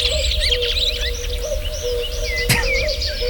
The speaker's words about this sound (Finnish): Se on pöllö. Se on pöllö.